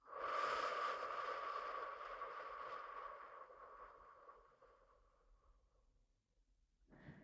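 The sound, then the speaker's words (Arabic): A long exhalation through the mouth during a guided breathing exercise, a soft breathy rush that fades gradually over several seconds, then a brief new breath at the very end. “نحبس، زفير من الفم.”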